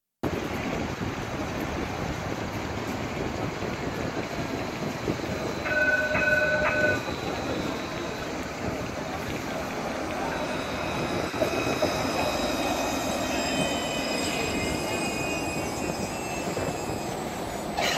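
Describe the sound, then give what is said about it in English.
A Barcelona streetcar going by with a steady rolling rumble throughout, marked by occasional high, thin squeals of the wheels, including a brief squeal near the middle and longer ones later. “I pulled up some video of the Barcelona streetcar to give you an idea what it sounds like for a streetcar like this to go by.”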